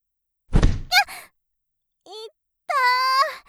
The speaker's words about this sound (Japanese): いきなり突き飛ばすなんて最低ね。